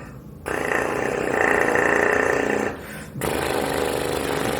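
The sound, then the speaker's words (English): Loose flapping lips buzz low, tuba-like notes without a mouthpiece, giving a rough, sustained drone that drops out briefly near the end and then resumes. “Yeah, that last sound you heard, it may not be apparent just by listening, but that was no mouthpiece. That was just flapping the lips.”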